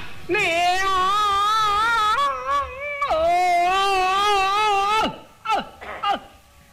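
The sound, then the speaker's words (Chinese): A voice imitates exaggerated Peking opera crying in the laosheng role: two long, loud, wavering wails, followed by a few short, breathy sobbing gasps. “京戏的这个哭是用了夸张的手法。 哦， 跟我们生活中的那个哭啊有很大距离。 对， 老生一哭是这样。”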